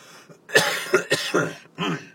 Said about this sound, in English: talking a lot makes me cough right now.